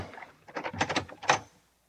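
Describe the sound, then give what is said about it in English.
A door is opened: a brief burst of rattling, clattering mechanical sounds lasting about a second, then silence. “All right. Well, here we are. We'll open the door.”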